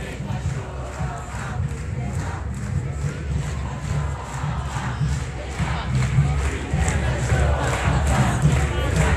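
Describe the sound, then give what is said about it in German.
Demonstrators in Geneva chanting an anti-state, anti-police, anti-fascist slogan in French at a march. The loud crowd chant is steady and rhythmic, with regular sharp pulses marking the beat and the volume building slightly toward the end. “Im Hintergrund hört ihr eine Parole.”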